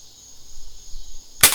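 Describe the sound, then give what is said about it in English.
A Diet Coke can is opened: after a thin steady hiss, a single sharp, bright pop cracks out at the very end. “Instead of shooting myself in the foot, I'm going for the Diet Coke can.”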